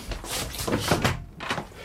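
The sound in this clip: A door being opened after a knock at a hotel room, heard as fairly quiet clunks and rustling handling noise.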